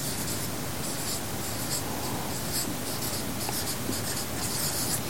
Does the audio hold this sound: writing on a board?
yes